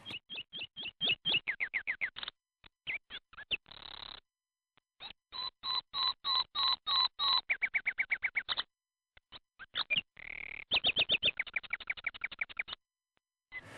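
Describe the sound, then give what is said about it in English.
Nightingale song: loud, high, rapid trills of repeated whistled notes delivered in several separate phrases, with short silences between bursts and no other sounds. “But the nightingale's song sounds like this.”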